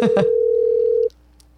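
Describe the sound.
A ringback tone sounds on an outgoing telephone call: one steady, unwavering tone holds for about a second and then cuts off into quiet line hiss.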